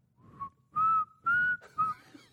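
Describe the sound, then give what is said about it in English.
A person whistles a short tune: a few clear, sustained notes with a slight upward glide, the later notes louder and steadier, over a faint low background hum. “I'd whistle it.”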